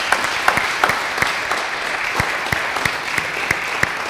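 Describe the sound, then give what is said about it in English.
Steady applause from an audience honoring a couple: dense, overlapping claps at an even level with a few sharper individual claps standing out, and no voices. “let's just give them another round of applause. How about that?”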